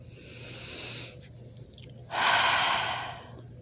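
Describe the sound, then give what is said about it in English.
Deep breathing into the belly during a guided relaxation exercise, with two long, airy breaths separated by a short quiet gap and a few faint clicks. The second breath is slightly louder, and there is no talking. “Close your eyes. Take big, big breath all the way to your belly.”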